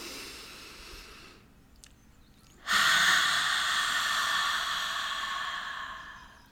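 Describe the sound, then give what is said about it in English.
A deep breath taken in through the nose and let out through the mouth: a quieter airy inhale, a short pause, then a long, loud, breathy exhale that slowly fades, with no talking. “Let's take a deep breath in through our nose and out our mouth.”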